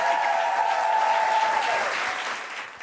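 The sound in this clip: Audience applause for a performer at the end of her set: sustained, dense clapping that holds steady, then gradually fades toward the end.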